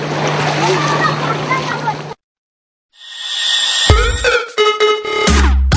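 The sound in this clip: Children splashing while bathing in water at a holiday camp in Batken, a dense, hissing wash of splashes mixed with kids' voices that breaks off abruptly partway through.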